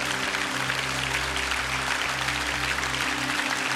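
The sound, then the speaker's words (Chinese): A church audience applauds during a worship service, a steady, even wash of clapping with no breaks, over a constant low hum. “再次给我们伟大奇妙宝座上的神最大的掌声。”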